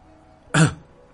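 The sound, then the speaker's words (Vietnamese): A single dry cough from an injured man, one short, harsh burst standing alone against a quiet background. “Lăng Tiếu ho khan một tiếng”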